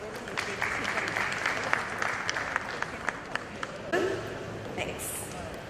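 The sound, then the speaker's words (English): An audience applauds to welcome a speaker to a talk, with sustained clapping and sharp individual claps that thin out toward the end. “So, ladies and gentlemen, please put your hands together and give Aditi a warm welcome.”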